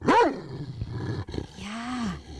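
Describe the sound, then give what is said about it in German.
A dog growls in a bad mood: a loud, harsh snarling burst at the start, then low rumbling growls that carry on to the end, with a drawn-out whining tone near the close. “Das war ein Hund, der gerade nicht so gut gelaunt ist.”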